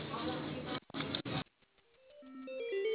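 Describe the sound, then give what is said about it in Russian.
Telephone line tones as a café call is put through to a call centre: after a person speaks briefly, a sequence of electronic beeps steps upward in pitch, starting faint and growing louder. “Одну минуту, переведу вас на колл-центр для оформления заказа. Оставайтесь на линии.”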